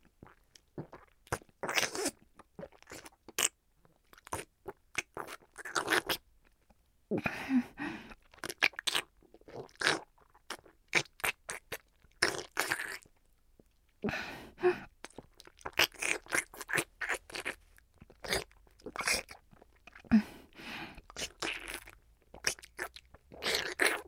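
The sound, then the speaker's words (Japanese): Crunchy food being bitten and chewed: many sharp, dry crunches come in quick, irregular bursts separated by brief pauses, fairly soft overall. “食べてるとこ見せてあげる。”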